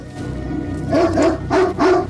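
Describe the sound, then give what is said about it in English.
Dogs of a night patrol barking: a few quick, mid-pitched barks in close succession, loud and clear after a quieter opening. “The dog's barking makes the rebels shine their torches into the night.”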